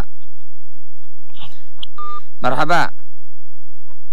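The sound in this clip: Brief telephone tones as a caller is put through to a call-in program: a short electronic beep amid near silence, followed by a quick burst of voice.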